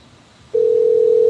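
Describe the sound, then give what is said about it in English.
A telephone dial tone, heard while calling a fast food restaurant, starts abruptly about halfway through. It is a steady, unbroken, fairly loud hum that holds one pitch to the end, with no voices. “I'm calling a fast food place.”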